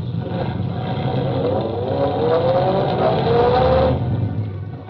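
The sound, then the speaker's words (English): A car engine accelerating as the driver steps on the gas: a loud, continuous rumbling roar whose tone climbs steadily over several seconds, then cuts off near the end. “As I stepped on the gas...”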